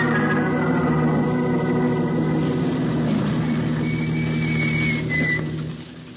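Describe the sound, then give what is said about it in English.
A car motor idles in a steady, low, humming drone with a constant pitch, continuing evenly and then fading slightly at the end. “You stay behind the wheel, Brooksy, and keep the motor running.”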